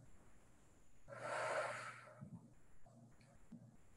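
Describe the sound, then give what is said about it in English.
A single slow, deep inhalation during guided meditation, breathy and soft, swelling and then fading, followed by faint quiet breath sounds. “Breathe in.”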